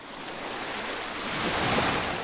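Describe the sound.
Sea waves washing onto a white-sand beach beside a coral reef in turquoise water: a steady, broad rushing surf that swells louder toward the end, with no voices.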